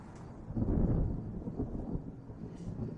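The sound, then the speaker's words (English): Thunder from a storm rolls as a deep, low rumble that swells early and then settles into a softer, continuous roll. No voices are heard. “Lightning flashes outside. There's a storm.”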